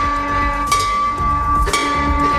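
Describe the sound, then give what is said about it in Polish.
A newly installed bell of hope at an oncology centre in Bydgoszcz is struck twice, about a second apart. Each strike is a sharp hit over a steady, sustained ringing tone. “Centrum Onkologii w Bydgoszczy, gdzie zamontowano dzwon nadziei. Nie tylko zamontowano, ale i w niego uderzono.”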